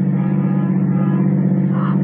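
Car driving along, a steady low engine drone with an even, humming tone that holds throughout, with no voices over it.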